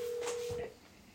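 A single ringback tone from an outgoing phone call that goes unanswered: a steady mid-pitched beep lasts just over half a second, then stops, leaving faint background noise.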